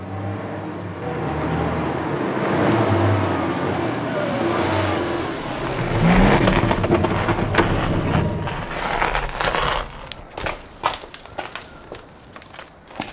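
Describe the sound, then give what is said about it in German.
A vehicle approaches and comes to a stop on a beach: a loud, steady engine rumble swells, then drops away, leaving a few scattered sharp knocks near the end. “Schließlich näherte sich ein Fahrzeug und hielt auf dem Strand.”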